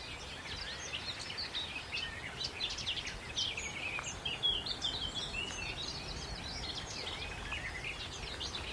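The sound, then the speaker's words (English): Garden warbler song, a fast, continuous chortling warble of high, bubbling phrases that runs without a break. It sits fairly faint over a soft, steady background hiss. “Garden warbler here. Sort of chortling away.”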